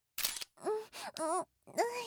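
A camera shutter clicks once to snap a photo, a brief sharp burst at the start, followed by a few breathy, voiced vocal sounds.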